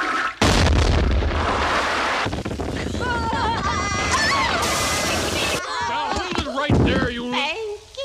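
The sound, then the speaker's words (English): A cherry bomb explodes in a toilet in an animated cartoon. A sudden, loud blast opens into a long, roaring rumble, and voices then cry out and talk over the fading noise. “She got a cherry bomb disintegrating her. Cool visual gag.”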